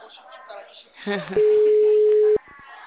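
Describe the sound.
A telephone ringback tone on a call that goes unanswered: one steady electronic tone lasting about a second follows a voice speaking.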